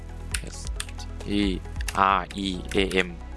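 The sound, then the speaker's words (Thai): Computer keyboard typing during a search entry, heard as a few sharp key clicks scattered under a person speaking. “พิมพ์ Google เลยนะครับไปที่ Search ค้นหาแล้วพิมพ์คำว่า Streamlab OBS ครับพิมพ์ตามผมเลยนะครับ”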